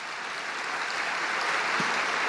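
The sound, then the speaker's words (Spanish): A crowd applauds at a papal general audience, a soft, continuous wash of clapping from a large gathering that stays steady and fairly faint throughout. “Pidiendo asimismo un aplauso dedicado a Santa Josefina Vachita”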